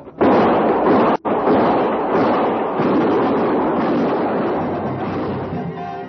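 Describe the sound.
Dramatized gunfire sound effect: a loud, dense roaring blast starts abruptly, breaks off for an instant early on, then rolls on continuously for several seconds and slowly eases in level.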